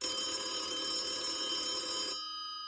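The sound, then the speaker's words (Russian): A telephone rings once more in a long, bright, bell-like burst that holds steady for about two seconds. It then drops to a fainter ringing tail. “И снова зазвонил телефон.”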